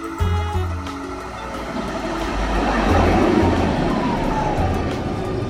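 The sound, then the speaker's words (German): A train arriving at a station rumbles loudly and steadily, the noise swelling toward the middle, with a thin squeal gliding across it and a low hum underneath. “Ach, da kommt deine Bahn.”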